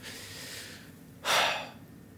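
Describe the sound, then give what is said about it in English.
A person out of breath takes one loud, rushing breath after a stretch of faint airy breathing. The burst is short and breathy, with no talk. “Why am I so puffed? Let me breathe real quick.”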